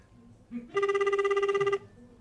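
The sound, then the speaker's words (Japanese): A telephone rings on an outgoing call to a radio listener. A single loud, warbling, bell-like ring lasts about a second, with quiet line noise before and after it. “ちょっと電話してみましょうか”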